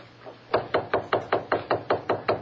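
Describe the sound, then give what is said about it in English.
Knocking on a study door: ten even, firm raps in a quick steady rhythm, each sharp and hollow, with no voices. “Here's the door of the study. I'll knock.”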